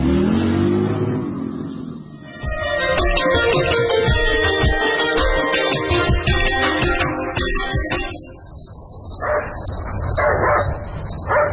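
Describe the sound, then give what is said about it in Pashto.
Dogs barking in a village, several barks ringing out over a dense, continuous wash of background noise, with no talk. “نه پوهیږم چې دا سپای ولې غاپي”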